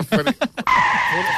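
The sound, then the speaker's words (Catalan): Car tires screech under sudden hard braking: a loud, sustained squeal cuts in abruptly after brief talk and holds steady to the end. “Ha fet una frenada, no, però en sec, eh?”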